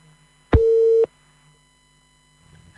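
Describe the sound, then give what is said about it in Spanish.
A telephone busy tone after a dropped call: one steady electronic beep lasting about half a second over a faint hum, followed by near-silence. “Bueno, qué pena, hemos perdido esa llamada”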